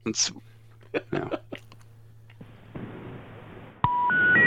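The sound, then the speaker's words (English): Three telephone beep tones, each pitched a step higher than the last, sound near the end over a hiss. Earlier, soft voice-like murmurs come and go, and the third tone is cut off. “The area code or that beep beep beep, that stands for RIP. Poop poop poop. Why is it the same tone 3 times?”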